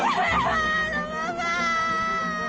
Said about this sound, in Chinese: 你别哭，别哭。